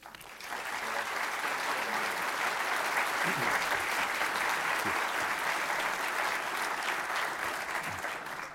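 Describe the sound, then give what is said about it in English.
Audience applause welcoming a guest lecturer at a Virginia history society talk on the state constitution: dense, steady clapping that builds quickly and holds at an even level throughout. “So please join me in a warm VHS welcome for Dick Howard, who will speak to us on the Constitution of Virginia.”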